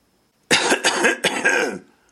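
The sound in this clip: A man, a colonel, clears his throat in two rough, raspy bursts, the second slightly shorter, followed by silence.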